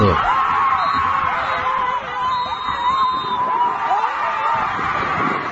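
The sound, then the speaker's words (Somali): A stadium crowd in Cadaado, Galgaduud region, shouting and screaming in a dense, continuous roar, with wavering high yells rising above the mass of voices. “halkan qeylada suudeen afka ah ka yeerayso ma aha isbitaal lagu xanaaneeyo dadka waalida qaba ama badhimir kala ee waa garoon qarash badan uu ku baxay oo ku yaala magaalada Cadaado”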